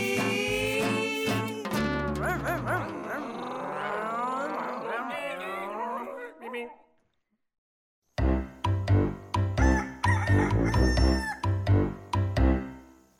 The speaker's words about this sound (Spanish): Ya viene el gallo con ki ki ki ri ki, ki ri ki ki ki ri ki ki ki ri ki.